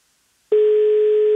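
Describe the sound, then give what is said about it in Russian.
Telephone ringback tone during an outgoing call: a single steady, mid-pitched electronic tone starts after a brief silence and holds evenly to the end, clean and alone. “Вот мы 8 гудков дали и уже хотели класть трубку”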